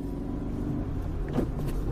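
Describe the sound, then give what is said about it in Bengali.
A jeep pulls away and drives off at night, its engine a steady low rumble that holds throughout. “ওরা জিপে উঠে বসতেই গাড়ি ছেড়ে দিল।”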